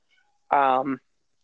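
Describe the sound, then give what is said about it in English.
A pet cat gives a single meow, a short, clear, fairly loud call lasting about half a second, heard alone against silence. “Excuse my cat for anybody that just heard that.”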